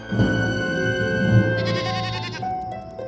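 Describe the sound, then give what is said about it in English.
A lamb bleats in the darkness near a cave: a drawn-out, wavering, high-pitched bleat stands out clearly over a steady low background. “That's one of our lambs. It must have strayed.”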